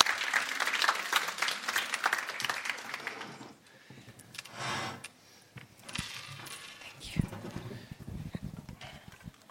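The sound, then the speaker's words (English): A church audience applauds at a Sunday service to welcome two people coming forward. The clapping is dense and fairly faint for the first few seconds, then thins out into scattered, quieter sounds. “So let's, let's give them a warm welcome as they come up.”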